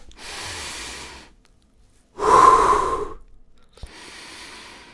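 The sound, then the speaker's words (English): Deep, slow breathing with no talk: a soft, airy breath in, then a louder, drawn-out breath out with a sighing hiss, and another breath in at the end. “Breathe.”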